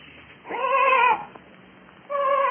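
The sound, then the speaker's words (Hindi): Sheep bleating in a forest, a lost sheep caught among thorny bushes with its wool tangled. Two drawn-out, harmonic bleats are heard with a quiet pause between them, the second cut off at the end, with no talking. “तब गड़रिये ने पहचाना कि ये उसी की भेड़ की आवाज है।”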